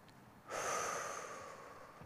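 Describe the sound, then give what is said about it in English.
A single long, deep breath during a guided relaxation, beginning abruptly and drawing out as a soft, airy rush that slowly tapers. It is faint and heard alone, with no talk. “Breathe deeper than usual.”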